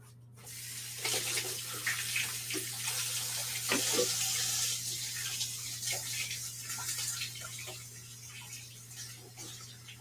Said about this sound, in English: Okay, now I'm gonna wash my hands and then I'm gonna put this thing in the oven.